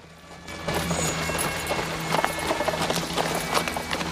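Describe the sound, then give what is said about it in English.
Hooves of a horse pulling a buggy as it rides up, a steady run of many clip-clop beats with a rolling rumble beneath, moderately loud throughout with no voices. “Gordon rides up with Rita at his side.”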